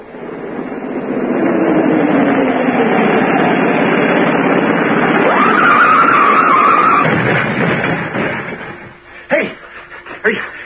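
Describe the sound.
A car skids on a turn while its motor is gunned, producing a long, loud tire screech and engine roar that lasts several seconds. It ends with a few sharp knocks.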